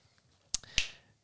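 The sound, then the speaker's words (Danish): Two sharp finger snaps in quick succession, crisp and bright, fairly quiet against near silence, the second followed by a brief decaying tail. “Der knipsede du. Kan du ikke knipse?”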